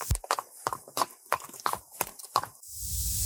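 Hoofbeats of a saddled mare being led toward an exit: a steady series of sharp, evenly paced clip-clops, followed by a sustained low rushing noise.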